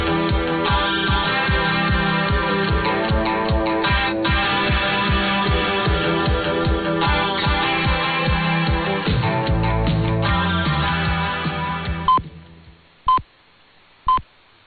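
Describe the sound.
Time-signal pips on a medium-wave radio broadcast: rhythmic programme audio runs steadily, then drops away as the transmission cuts off, leaving three short, evenly spaced beeps.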